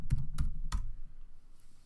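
Keys pressed on a computer keyboard while a password is typed: three sharp, separate clicks within the first second, then a low, quiet hum with no further key strikes.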